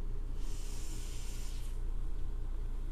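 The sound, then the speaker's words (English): A deep breath drawn in during a guided meditation makes a soft, airy hiss that swells for just over a second and then fades, over a low, steady background hum. “Deep breath in.”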